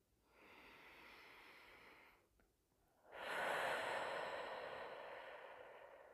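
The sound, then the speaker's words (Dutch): Deep inhaling through the nose, heard as two long, quiet breaths with a soft airy rush and no talking. “Dus ik ga even, en dat mag jij ook zien, even goed door je neus inademen.”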